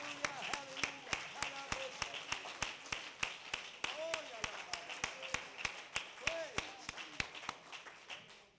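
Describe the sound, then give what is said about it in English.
Church audience clapping hands in a fast, steady rhythm, with many sharp claps over voices throughout. “Clap your hands before you're seated.”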